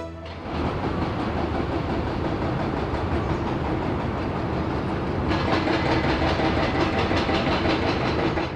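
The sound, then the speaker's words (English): Heavy machinery at a port in Goa, India, grabbing coal powder from a ship and unloading it onto an elevated conveyor belt, making a continuous, dense mechanical roar. A brighter, hissing clatter joins partway through and holds steady to the end. “This is the sound of machinery clutching batches of coal powder from a ship and unloading it onto a transmission belt high up in the air. Day and night, this sound never stops.”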